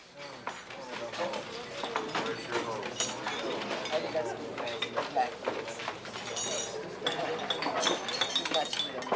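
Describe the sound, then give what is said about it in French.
Dining-room ambience of a restaurant or bistro, with a constant murmur of many voices and frequent light clinks of glasses and dishes. The bustle stays steady throughout. “Comme on est en studio, on se fait plaisir, on met des petits sons d'ambiance. C'est un son d'ambiance tout bête, hein. C'est quoi ? Un bar, peut-être. Voilà, une salle de restaurant, une salle de bistrot”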